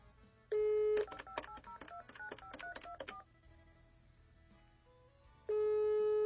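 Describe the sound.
Outgoing telephone call to a number that keeps going to voicemail: a steady tone, a quick run of keypad dialing beeps, a quiet gap, then a steady ringback tone starts again and holds to the end.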